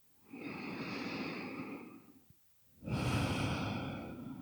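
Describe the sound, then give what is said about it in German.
Two deep, slow breaths, the first a long airy breath of almost two seconds, then a short pause and a second, stronger one, soft and calm with no talk. “Dann nimm hier ein paar tiefere Atemzüge ein und aus.”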